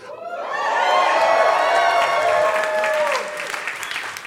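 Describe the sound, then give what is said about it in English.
A live show audience cheers and applauds loudly: dense clapping with whoops and shouts that swells quickly, holds steady, and eases slightly near the end. “if you're new to the show, every two sentences, everyone needs to cheer.”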